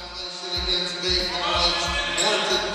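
A basketball is dribbled on a court: several firm, low thumps land in a steady, loose rhythm over a continuous tonal background hum.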